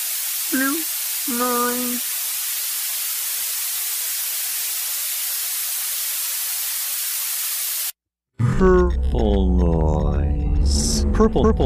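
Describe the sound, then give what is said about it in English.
Blue noise, with power rising 3 dB per octave, plays as a steady, bright, treble-heavy hiss for about eight seconds without change. A voice talks briefly over its start and speaks again after the noise cuts off. “Blue noise sounds like this.”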